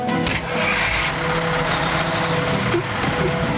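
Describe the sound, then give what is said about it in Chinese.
A car engine drives off in pursuit, a steady, loud rumble mixed with road noise throughout, without a clear change in pitch. “又来了一辆汽车，可恶，竟然没打中！ 我会开车，咱们追上去。”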